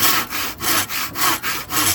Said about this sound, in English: Now watch this. I'm really good at starting fire by rubbing wood.